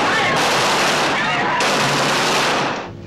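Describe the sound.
A submachine gun fires from a car swinging round a corner, with a man leaning out. The burst of automatic fire is loud, rapid and unbroken, rattling on for about three seconds before tailing off.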